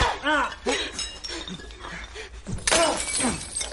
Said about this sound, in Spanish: Ella coge botellas vacías de una caja y se las lanza.